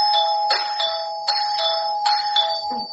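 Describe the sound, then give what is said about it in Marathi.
A doorbell rings on a door, a steady electronic ringing made of bright, sustained high tones that restart in several bursts, each with a sharp onset. The ringing is fairly loud and sounds alone, with no talk. “अरे अच्छा, दारावरील bell वाजली वाटते.”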